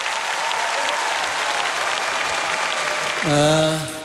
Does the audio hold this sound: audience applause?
yes

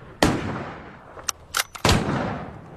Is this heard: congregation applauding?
no

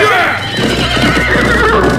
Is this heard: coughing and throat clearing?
no

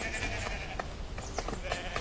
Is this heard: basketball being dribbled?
no

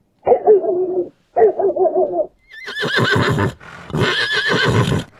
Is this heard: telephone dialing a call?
no

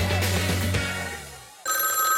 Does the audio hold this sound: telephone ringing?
yes

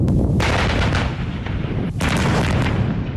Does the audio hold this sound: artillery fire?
yes

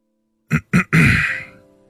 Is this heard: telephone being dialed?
no

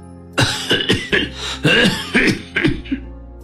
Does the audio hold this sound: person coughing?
yes

